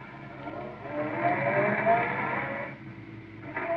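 Car engine drone as a car drives toward a spaceport: a steady whirring hum that swells through the middle, drops away briefly, then picks up again near the end.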